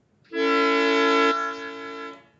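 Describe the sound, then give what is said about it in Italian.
An A major chord rings out as one sustained harmonic chord, full and steady for about a second, then softening into a quieter held tail before it stops; no voices. “La maggiore, che voi sappiate o meno quanti diesis è in chiave, eccetera, suona così.”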